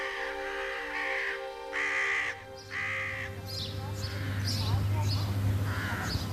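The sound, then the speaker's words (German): Ravens croak in a run of several harsh, rasping caws that overlap and repeat, fairly loud over a steady background. “Hierauf erhoben die Raben sich von der Stange und krächzten”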